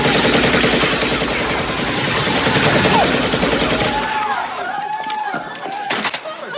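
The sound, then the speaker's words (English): Rapid automatic gunfire from a film scene of a man shooting up a bar, a dense, loud, continuous rattle that gives way to scattered clattering and a few sharp cracks. “And he does that by getting drunk one night and shooting up a bar.”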